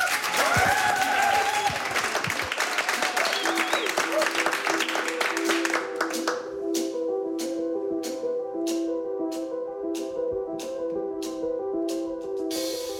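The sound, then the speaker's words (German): Audience applause for a performer at a music event, a loud, dense burst of clapping for about six seconds that then gives way to music with regular, repeated notes. “Bitte nochmal einen herzlichen Beifall”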